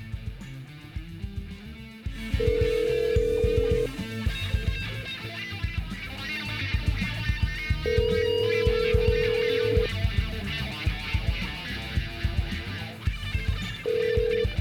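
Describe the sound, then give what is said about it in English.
Dialing music plays before a call: a loud, busy music track with a steady telephone-like electronic tone that cuts in and out three times over it. “I'm going to give you a little dialing music here.”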